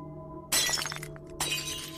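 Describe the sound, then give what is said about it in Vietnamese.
A flower vase tips over and shatters on the ground: a sharp crash of breaking glass, then a second burst of shattering, over a steady tonal background. “Cái bình hoa đột nhiên đổ nhào xuống đất, vỡ tan tành.”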